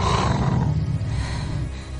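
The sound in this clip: A wolf growls in a low, rough, continuous rumble, staying loud and steady through the two seconds with no voices over it.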